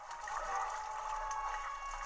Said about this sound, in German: Okay, Link schwimmt noch hier live. Oh, nice. Stachelbackbogen, das ist geil. Und jetzt schwimmen.